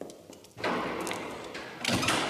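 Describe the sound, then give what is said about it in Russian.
A door shuts with a dull thud and is then locked with a few short clicks, all over a steady background hiss. “Оля запирает дверь и поднимается с подругой на лифте.”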